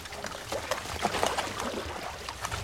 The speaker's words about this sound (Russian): Из-под моста выплывают резиновые лодки. Гребцы – немецкие солдаты.